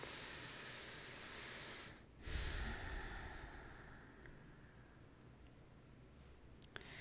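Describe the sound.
A slow deep breath taken during a calm affirmation exercise: long, soft, airy hissing broken by a brief pause, then another long breathy stretch that fades gently, with no talk.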